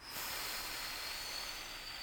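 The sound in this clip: A slow exhale after a Valsalva maneuver, done by squeezing the chest and diaphragm: a steady, breathy hiss that lasts about two seconds, heard alone.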